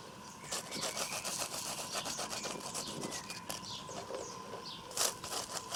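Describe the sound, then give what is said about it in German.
Toasted bread is rubbed in a kitchen, making many quick, rhythmic rasping scrapes that stay fairly faint and even, with no talk over them. “So, das ist schön geröstet schon mal. Dreht ihr es rum und reibt ihr es einfach ein.”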